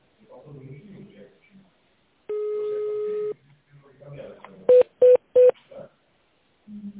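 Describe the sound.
Telephone keypad tone dialing. A long steady tone is followed by three short, evenly spaced keypad beeps, with a recorded voice speaking before and after the tones.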